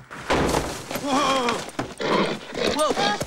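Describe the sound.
Horses whinny and hooves clatter as a team breaks free from a buckboard after its front wheel strikes a rock. Two rising-and-falling neighs stand out over busy, noisy thumping, with a voice heard around them.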